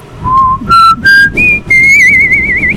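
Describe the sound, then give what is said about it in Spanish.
A person whistles five clear notes, each higher than the last. The final note is held long with a wavering vibrato. The whistling is loud and carries on alone with no talk. “ese sí me salió, el chiflidito sí me salió, hombre”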